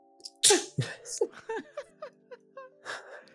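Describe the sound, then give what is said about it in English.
A sharp, explosive sneeze bursts out near the start. A string of short voiced vocal sounds and breathy noises follows, rising and falling in quick succession. “Work on that sneeze!”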